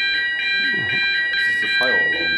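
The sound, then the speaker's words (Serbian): A fire alarm sounds during a test at a gathering in Belgrade, giving high, piercing electronic beeps that pulse rapidly and steadily throughout while a man talks over it. “Kažu da je ovo samo proba alarma za... za požar, tako da možemo mirno nastaviti, samo da prestane alarm.”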